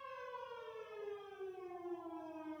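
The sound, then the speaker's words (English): A town fire alarm siren, similar to an air raid siren, wails as a faint, sustained, harmonic-rich tone whose pitch slowly and steadily falls throughout. “That's the fire alarm for my town. It's like a goddamn air raid siren.”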